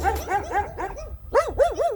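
A dog barks in a rapid series of short, yappy barks and yips, with a brief pause midway before another quick burst.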